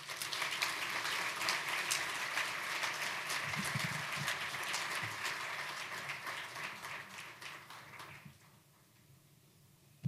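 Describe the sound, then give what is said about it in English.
Fairly soft audience applause welcomes a speaker to the stage, a steady wash of many hands clapping for about eight seconds before dying away to quiet. “Please put your hands together and welcome her.”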